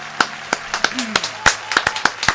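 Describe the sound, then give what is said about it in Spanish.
A child applauds himself with many uneven handclaps, sharp separate slaps in an irregular rhythm, with a brief voice sounding partway through. “Y se vitorea a sí mismo porque esa es la gente que nosotros queremos. La gente que se aplaude a sí mismo cuando termina de hacer algo, cualquier cosa.”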